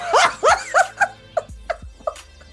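A puppy yips in a quick run of about seven high-pitched barks. The first few are loud and close together, and the later ones get fainter and more spread out.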